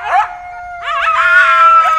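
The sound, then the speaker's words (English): A pair of lean gray coyotes howls and yips in a pen at a wildlife rescue compound on a sunny summer morning. The howls are sustained and wavering, with overlapping voices and brief yips, loud and continuous throughout. “a sort of running conversation with a pair of lean, lively gray coyotes”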